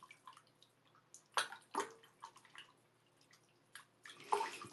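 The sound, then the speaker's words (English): Water sloshes and splashes in a rather full bathtub as someone shifts about, in faint, irregular swishes and drips with a few louder splashes. “even a little too much water in here, maybe. I feel like it's a little hard to move in this space. Give me a second. Let me drain it just a little bit.”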